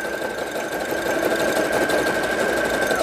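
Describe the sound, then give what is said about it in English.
A rethreaded sewing machine runs continuously with an even mechanical hum and a thin, sustained whine above it, steady and moderately loud throughout. “You do get a feel for the machine if it's not sewing. It almost tells you, hey, hey, I'm not sewing. There's no thread in here because it just feels different.”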